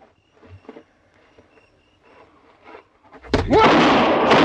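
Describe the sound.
A derringer pistol gunshot in a radio drama: after a stretch of quiet voices, one sudden loud bang bursts out near the end and carries into a dense, noisy tail.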